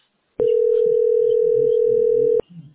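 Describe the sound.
A steady, continuous telephone dial tone plays while a call is being placed. The low hum starts and stops abruptly after about two seconds, with faint voices talking underneath it and continuing after it ends.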